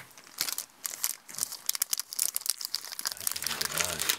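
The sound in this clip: A chocolate wrapper crinkles as it is unwrapped on a long walk, giving a dense, crackly rustle of many sharp crackles that continues steadily throughout, with a voice briefly audible near the end.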